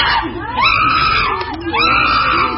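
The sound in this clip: Zoo animals, a male and a female, call out excitedly while eating fruit and vegetables: loud, shrill screeching cries that repeatedly swoop up and down in pitch over a noisy background.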